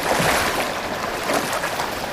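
Water splashing and sloshing in an outdoor swimming pool as a man lets himself fall in. The wash of water is continuous and fairly even, with slightly stronger surges early on and near the middle, and no voices.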